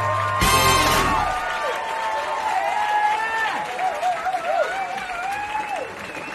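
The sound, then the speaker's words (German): An audience bursts into applause and cheering as a stand-up comedian is introduced before a premiere; a loud, sharp burst opens it, then dense clapping continues steadily for several seconds before easing slightly. “Einen großen Applaus für Sebastian Hering.”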